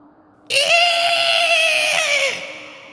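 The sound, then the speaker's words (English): A single high-pitched scream rises from inside a crypt in a cemetery family vault, starting abruptly, holding steady for nearly two seconds, then dropping away over a faint low background. “The caretaker turns towards the scream.”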